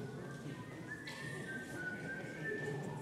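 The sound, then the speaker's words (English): A person whistles a song tune, a thin, steady high melody line with small shifts in pitch, fairly quiet over a low background hum. “How's the song go? Somebody whistle it.”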